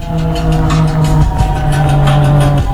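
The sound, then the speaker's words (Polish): Car engine droning steadily while driving, a continuous even hum with a low tone running throughout and no talk. “będzie słychać odgłosy samochodu, trochę radia samochodowego w tle, czyli taki podkład muzyczny”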